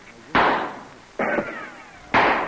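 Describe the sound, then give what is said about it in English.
Musket shots in a frontier battle scene with Colonel Davy Crockett: three loud, sharp reports, each followed by a rough, decaying rumble, with gaps of under a second between them. “Golly, Colonel, two shots and two dead.”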